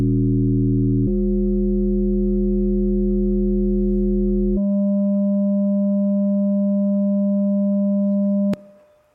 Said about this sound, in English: This was the same 200 hertz carrier the whole time, so the same note. All we were doing was changing how fast vibrato goes.